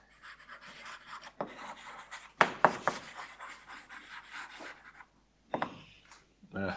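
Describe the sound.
Formulas being written on a board during a logic lecture, with scratchy strokes in short bursts separated by brief pauses and a few sharper taps, fairly faint overall.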